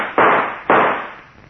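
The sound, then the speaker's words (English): Two sharp gunshots in a radio drama ring out about half a second apart. Each loud burst trails off in a fading rumble. “All right, then I'll shoot.”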